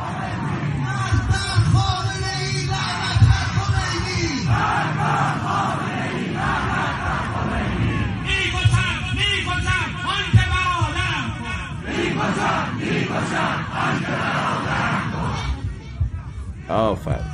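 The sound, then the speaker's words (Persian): A large crowd of townspeople in Semirom, Iran, gathered in the street for a ceremony, chants loudly in unison; rhythmic shouted phrases repeat continuously over a dense roar of many voices throughout. “جمعیت رو ببینید، یعنی آفرین برنامه، یعنی تمام مردم سمیروم اومده بودن.”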